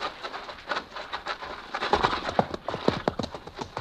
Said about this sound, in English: How close? I don't know. There. Look, a horseman.